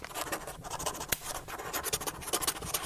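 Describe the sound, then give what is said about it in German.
Scratchy, irregular strokes of a writing implement on paper as a letter is written to an archbishop in a study inside Wittenberg's Augustinian monastery, faint and uneven with brief pauses between strokes. “Am Abend des 31. Oktober sitzt Martin Luther in seiner professoralen Wohnung im Südturm des Wittenberger Augustinerklosters und schreibt dem Erzbischof einen Brief.”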